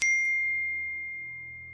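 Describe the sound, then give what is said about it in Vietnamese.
A mobile phone sounds a text message alert: one bright, clear electronic ding that rings out alone and fades slowly. “Điện thoại của Tiên báo có tin nhắn”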